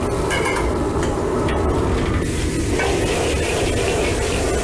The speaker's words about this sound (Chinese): 料头炒香之后，加入切好的红辣椒和洋葱粒，